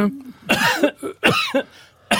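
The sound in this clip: A performed cough with a voiced 'e' sound in it, delivered in a reading of a text: a few loud, throaty bursts in quick succession with short gaps, rough and vocal rather than dry.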